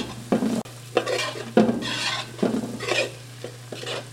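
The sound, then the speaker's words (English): Pasta tossed with oil, garlic and broccoli in a pan: repeated scraping stir strokes over a steady sizzle, with a low constant hum underneath and no voices. “So now you're tossing the pasta”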